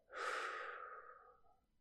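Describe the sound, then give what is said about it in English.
A single long, slow, deep breath from a trembling person settling down, soft and unhurried, swelling quickly and then fading gradually, heard alone with no talk. “taking one big deep breath, then exhaling really slowly. In, out.”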